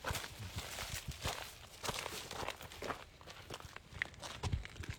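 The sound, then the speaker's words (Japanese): Footsteps walk steadily along a narrow path between farm fields. The steps are soft and many, with a light scuffing quality, and there are no voices. “もうあぜ道を歩いていきます。”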